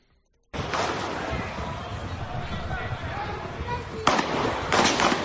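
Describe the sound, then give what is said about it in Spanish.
Gunshots as police fire at a 19-year-old man armed with a large knife: sharp loud bangs near the end rise over a dense, noisy background of voices and commotion. “Es el momento en el que los policías disparan contra un joven de 19 años de Gambia”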